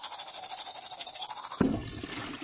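Faint, rhythmic scrubbing of a toothbrush during a morning routine of brushing teeth, with a brief sharper knock near the end and no voices.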